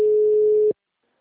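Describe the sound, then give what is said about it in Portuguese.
A telephone busy signal: one steady, mid-pitched tone holds for about 0.7 seconds and then cuts off abruptly into silence. “O número está ocupado.”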